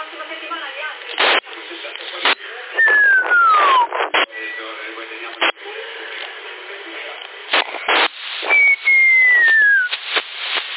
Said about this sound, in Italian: Chi è che fischia?